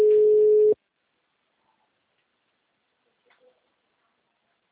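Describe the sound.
A single steady phone tone sounds on the line after a dropped call, lasting under a second before cutting to silence, with only a faint click later.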